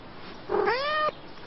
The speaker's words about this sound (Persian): آخه گربه ها رو یه ذره بهش قضا بدیم.